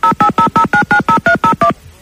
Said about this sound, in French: Attention, on y va, on appelle encore